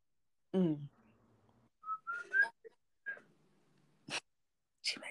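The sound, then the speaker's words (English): A simple whistle of a few short, clear whistled notes, fairly faint, with brief breathy bursts before and after. “he could come back with the simplest whistle you've ever heard in your life”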